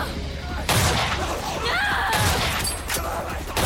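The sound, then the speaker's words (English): Gunfire aimed at zombies: a few sharp, heavy bursts of shots cut through a dense, noisy mix, with some higher tonal sounds between them. “Claire strides forward, firing at the zombies as they feast on the writhing Mikey.”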